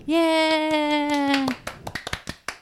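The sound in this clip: Scattered hand claps, a handful of sharp, separate strikes, follow a long, steady, sustained tonal note held for about a second and a half. The clapping is sparse and uneven rather than a full crowd ovation.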